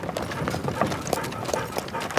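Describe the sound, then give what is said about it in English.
Horse hooves clip-clop steadily as a mare is led by the bridle down a lane, giving an even run of many soft, moderately loud hoofbeats. “takes hold of the horse's bridle and gently leads her down the lane”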